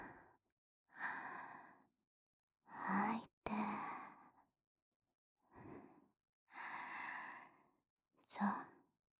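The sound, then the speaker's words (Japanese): Soft breathing in and out during a guided relaxation exercise: several slow, airy inhales and exhales separated by short silences, quiet and breathy, with one sharp click partway through. “じゃあ、息を吸って、吐いて、吸って、”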